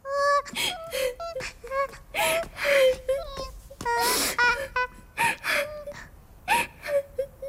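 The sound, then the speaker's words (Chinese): A girl cries sadly at home, many broken wailing sobs mixed with sharp gasping breaths, rising and breaking in uneven bursts, with no other sounds. “青铜回到家里伤心的哭泣。”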